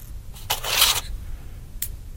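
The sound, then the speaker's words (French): Dry spaghetti snapping into pieces: a short crackling burst of breaks, a longer crisp crunch, then one more quick snap after a pause. “Mais pourquoi ça se casse en 3 morceaux ? Parce que quand je casse un crayon, il se casse en 2 morceaux. Pourquoi le spaghetti se casse en 3 morceaux ?”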